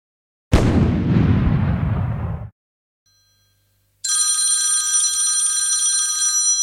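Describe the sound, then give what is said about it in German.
A telephone rings with an incoming call: a sustained, bright, high electronic ringing that runs steadily to the end, after a loud rumbling burst and a second of silence. “Oh, der Bürgermeister ruft an.”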